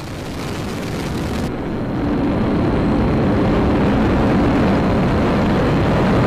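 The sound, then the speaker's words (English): Liftoff roar of an Atlas V rocket carrying the Clio spacecraft for Lockheed Martin Space Systems: a loud, broad, rumbling roar that swells in level over the first seconds and then holds steady. “We have liftoff of the Atlas V rocket carrying the Clio spacecraft for Lockheed Martin Space Systems.”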